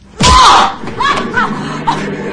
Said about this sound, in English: He slaps her hard on the face.